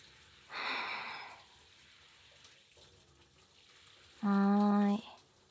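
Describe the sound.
Water poured out to rinse someone while bathing, heard as two separate bursts of gushing flow: a short hissing splash first, then after a pause a louder, steadier stream carrying a tonal whine.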